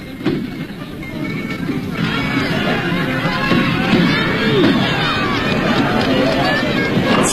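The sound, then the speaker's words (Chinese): Dense crowd noise from many people gathered at a horse racetrack for an annual festival. Steady murmur and chatter of voices runs without a break through the whole clip, with no single sound standing out above it. “赛马场上聚集了很多人，大家欢呼着笑着”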